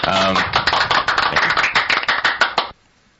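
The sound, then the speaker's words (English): Studio audience applause sound effect: a rapid stream of many sharp claps following a brief voice, keeping an even level before stopping abruptly into near silence. “Yeah. Sound effects. Studio audience.”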